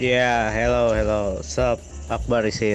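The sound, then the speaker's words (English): Crickets chirping at night in a village make a steady high-pitched drone that runs underneath a man talking on a call. “he's in the village, and apparently that's how the village sounds at night.”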